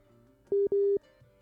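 Telephone line tone of an incoming call to a radio show: two loud, steady, mid-pitched electronic beeps in close succession, a short one then a longer one, otherwise quiet.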